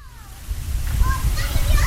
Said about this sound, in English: The kids playing in the Victory Swimming Pool in North Miami Beach have some extra visitors.